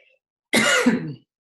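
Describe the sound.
A single throat clearing: one short, rough, guttural burst lasting under a second, loud and alone against silence.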